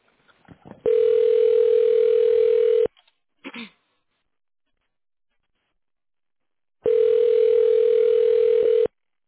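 A telephone tone plays while a call is transferred: two long steady beeps of about two seconds each, separated by a short click and a silent pause.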